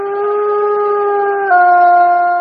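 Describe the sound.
A wild wolf howls in Voyageurs National Park, caught on a trail camera: one loud, sustained, steady tone that steps slightly lower midway and holds to the end.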